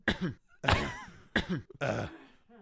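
A small, nagging cough: four rough, voiced bursts that mix coughing with throat clearing, loud and close together with brief gaps between them.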